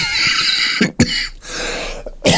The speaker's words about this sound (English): Suddenly develop this desperate urge to cough, and it comes at the most inappropriate moment.